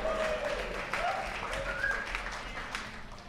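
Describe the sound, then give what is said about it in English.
Audience applause answers a comedy show host's request for a hand, a steady wash of clapping that holds at an even level for the whole stretch, with a few thin whistle-like tones riding on top. “How about a hand for me, everybody?”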